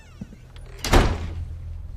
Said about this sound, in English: opens the door.